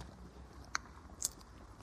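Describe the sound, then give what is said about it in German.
Faint, crisp crunches as someone bites into a Timeout chocolate bar, two sharp bites about half a second apart against otherwise quiet surroundings. “Ich nehme mir mal was zum Essen. Zum Naschen. Das ist ein Schokoriegel. Ja, mal gucken, wie das schmeckt.”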